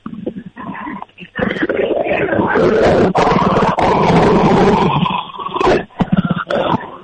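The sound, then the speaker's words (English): A dog growls deeply over a phone call, a rough, roaring, tiger-like rumble that holds for several seconds, with shorter growling bursts before and after. “You hear him? Did I hear that? Are you kidding? That dog sounds like, you sure that's a dog? Yeah. Sure that's not a tiger?”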